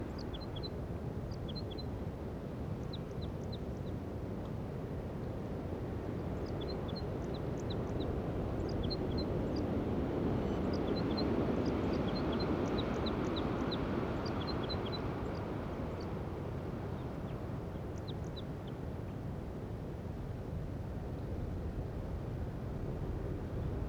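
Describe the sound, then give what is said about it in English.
Wild crossbill song: many short, high chip notes come in scattered bursts, faint above a loud, steady, low rumbling drone. “Stop. Start recording. Wild Crossbill song.”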